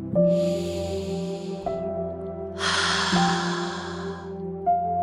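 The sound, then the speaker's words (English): Deep breathing during a guided morning positivity meditation: two long, airy breaths drawn slowly over a soft, sustained tonal music bed, with no talking. “Take another inhale and exhale, and thank the energies above for this gift.”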